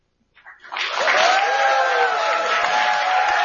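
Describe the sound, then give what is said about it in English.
Audience applause welcoming congressional candidates at a political candidate forum, a dense, loud burst of clapping that swells quickly and holds steady, with some cheering voices mixed in. “I'm going to ask everybody to please hold their applause and not interrupt the candidates, except for right now as we welcome your candidates for Congress.”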